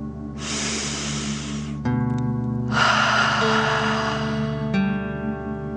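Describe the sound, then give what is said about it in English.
A deep breath is drawn in and then blown out through the mouth in a guided breathing exercise. Both phases are long, airy and fairly loud, over a soft sustained tonal background. “Okay, deep breath in and out.”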